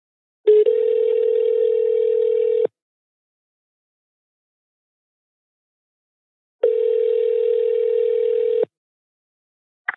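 Telephone line tone while placing a call to the Algarve: two long, steady mid-pitched beeps of about two seconds each, separated by roughly four seconds of silence, with a faint blip at the very end.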